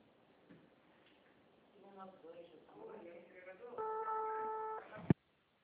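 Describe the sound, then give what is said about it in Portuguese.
A ringing tone on an outgoing phone call, heard down a narrow telephone line: muffled voices, then one steady buzzing tone lasting about a second, cut off by a sharp click. “Tô tentando, tá chamando aqui, você tá ouvindo? Ó, tá chamando.”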